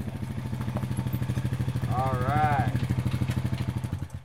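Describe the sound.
A quad bike rattles into a dusty ranch yard in the Gila Wilderness and pulls up by a horse stable. Its engine gives a steady, rapid, even putter that swells slightly midway.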